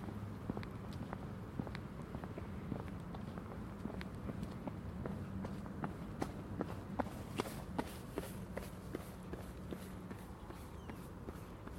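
Runner's footsteps passing on an autumn day outdoors in Birmingham: many quick, regular footfalls that sound faint over a low, steady background rumble, growing sharper and more prominent partway through before easing off.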